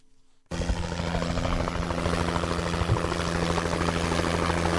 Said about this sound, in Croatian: Sanitetski helikopter potpuno je opremljen.